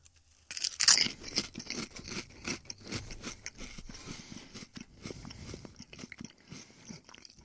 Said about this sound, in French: Oh, des belles grosses chips, On goûte ça.